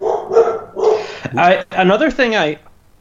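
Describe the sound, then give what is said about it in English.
Loud, misbehaving dog barking: a few sharp, loud barks early on, followed by longer yelping, whining calls, with a person's voice also present. “Excuse the barking. Yeah, I have like a loud, misbehaving dog.”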